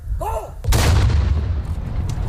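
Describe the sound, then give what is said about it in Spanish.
An artillery regiment fires the traditional noon cannon shot at Ceuta, overlooking the strait. A single loud, deep blast is followed by a long, rumbling decay. “Se dispara el cañonazo de las 12, que anuncia la llegada del mediodía.”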